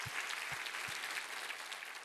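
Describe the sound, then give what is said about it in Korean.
A church audience applauds in praise during worship, a faint, steady, dense patter of many hands clapping that runs evenly from start to finish, with a few low thumps early on. “우리 하나님께 감사와 영광의 박수를 올려드리겠습니다.”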